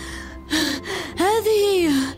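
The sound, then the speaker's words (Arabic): A man pants out of breath after running up with a letter in hand, trying to speak. A few loud, breathy gasps come in quick succession, the last ones voiced and strained, their pitch rising then sliding down. “فحين وصل عندنا بدأ يلهث وهو يحاول التحدث.”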